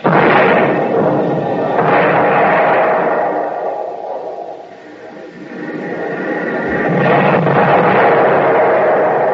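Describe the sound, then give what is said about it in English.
Artillery shells explode on landing in a battlefield scene: heavy, rumbling blasts swell and fade a few times in a continuous roar, thinning briefly in the middle before building again. “Every time a shell lands, they get closer. Wonder what they're using. We ain't got stuff that big in the Army. We couldn't get a gun any bigger.”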